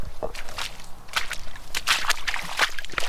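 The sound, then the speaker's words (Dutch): Squelching, sloshing footsteps wade through water and mud in a wet forest, the Elsenbroekenbos, as many irregular steps splash and suck at the ground. “En zo gingen wij al ploeterend weer terug naar de vaste grond onder onze voeten.”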